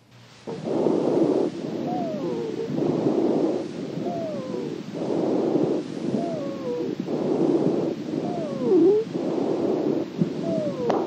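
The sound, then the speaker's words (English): Mild expiratory wheeze in lung sounds: a series of roughly eight breath cycles, each with a thin, whistling musical tone that glides in pitch over broad airy breath noise, repeating at a steady rhythm and moderately loud. “Mild expiratory wheeze.”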